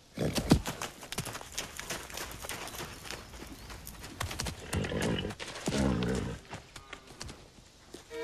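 A horse trotting off across a corral, several hoof thuds in an uneven clip-clop rhythm, moderately loud, with louder bursts of movement midway.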